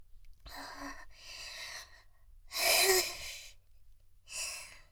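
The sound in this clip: Heavy, excited breathing in four long breathy bursts separated by short pauses. The third burst is the loudest and the last is shorter, with no words spoken.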